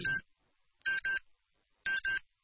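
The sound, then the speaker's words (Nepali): Radio time signal beeps mark 8 a.m. with short, bright electronic tones: one beep, then two quick pairs at steady intervals, each separated by silence. “बिहान 8 बजेको प्रकृति समय सन्देश”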